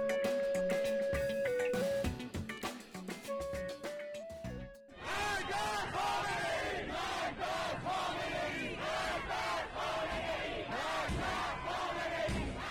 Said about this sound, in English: What you're hearing is the sound of downtown Tehran at midnight on Tuesday. The crowd is chanting "Death to Khamenei,"